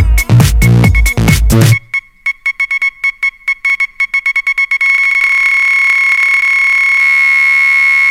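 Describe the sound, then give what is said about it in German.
Morse code tone beeping inside a song: after a short burst of music, a high, steady-pitched tone is keyed into short and long beeps in an uneven rhythm, then holds as one continuous loud tone. “Ich morse dir einen Liebesbrief. Wann musst du mir zurück? Komm, mach jetzt, denn ich warte schon auf deinen Morseton.”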